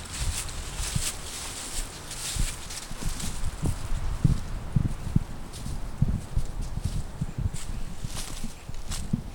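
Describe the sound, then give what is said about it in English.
Footsteps on an unpaved dirt trail through trees: many soft, crunching steps in a steady walking rhythm, quiet and continuous throughout, with no talking. “We're walking along a trail, not a paved trail, no. Down through the trees.”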